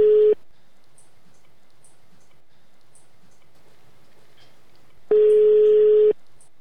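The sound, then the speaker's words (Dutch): Telephone ringing tone while calling a teacher: a steady mid-pitched tone cuts off at the start, a long near-silent gap with faint line hiss follows, then one more tone of about a second. “we gaan zo meteen even docent Emel bellen”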